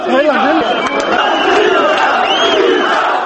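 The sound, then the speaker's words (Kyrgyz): Protesters outside parliament during Georgia's Rose Revolution shout "Misha, Misha" in support of Saakashvili. The chorus of many voices is loud, dense and continuous. “Сырттагы эл: «Миша, Миша» деп кыйкырып турду.”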